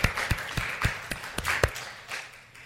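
Audience applause breaks out as sparse, scattered clapping, a handful of distinct sharp claps that thin out and fade within a few seconds.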